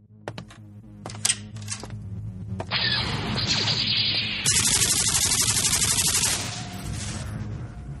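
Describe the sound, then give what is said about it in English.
Firing of a double-barreled nuclear plasma cannon in a video game: a few sharp electronic clicks open into loud, crackling static-like blasts and hissing bursts that shift abruptly in tone, with no talking. “Well, I just conquered the outer rim planet of Pico Pond with my trusty double-barreled nuclear plasma cannon. Well, I just did in this video game.”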